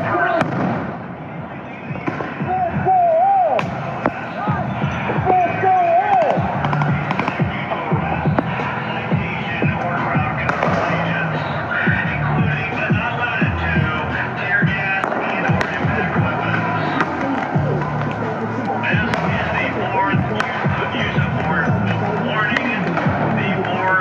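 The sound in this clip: Grenades exploding during a street protest in Portland, as federal agents and police fire on a retreating crowd amid tear gas: many sharp bangs and pops scattered over constant crowd noise, with people talking throughout.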